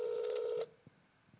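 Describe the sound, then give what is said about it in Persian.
A telephone tone while an unknown number is redialed: one steady electronic tone holds for just over half a second, then cuts off, leaving near-silence with a couple of faint clicks. “مجدد همین شماره رو بگیریم خیالتون راحت شماره ناشناسه”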